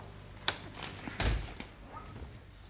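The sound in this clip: A safe being opened, heard as a quiet sharp click followed about a second later by a heavier thunk. A few faint clicks and knocks come after, with no voices.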